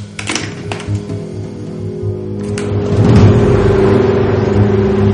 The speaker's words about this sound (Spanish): En la autovía el coche negro circula hacia un túnel.